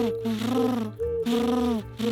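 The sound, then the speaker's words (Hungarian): A human voice imitating a dove's cooing: low, rounded, hooting phrases repeated in a steady rhythm, each wavering slightly in pitch before a brief gap. “Turbékolt a galamb.”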